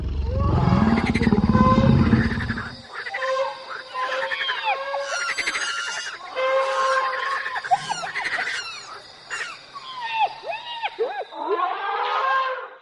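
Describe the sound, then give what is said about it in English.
Monkey calls in a run of loud, high chattering and screeching cries with sharply sweeping pitch, many in quick bursts, opening over a low rumble. “Animals. Monkey.”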